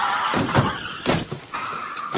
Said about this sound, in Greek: Όπα, με συγχωρείτε, έρχεται ένα φορτηγό πάνω μας.